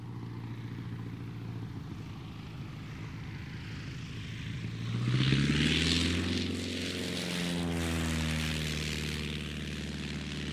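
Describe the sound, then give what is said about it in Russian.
Droning engine of an An-2 propeller biplane flying overhead: a steady buzzing hum swells loudest midway, then its pitch sinks as the plane passes, and the drone continues alone with no voices. “Разбудил меня звук. Звук, знакомый с детства. Самолет. Я вырос в небольшом приморском городке, рядом с которым был аэродром малой авиации. Звук мотора «Аннушки» сложно с чем-то другим перепутать.”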